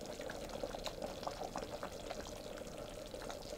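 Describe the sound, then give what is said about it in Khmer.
Coconut cream pours steadily into a pot of taro dessert, making a continuous soft liquid hiss and trickle that stays fairly faint and even throughout. “ចាំដល់ពេលនេះនាងខ្ញុំនឹងដាក់ខ្ទិះដើមចូលបន្តិច”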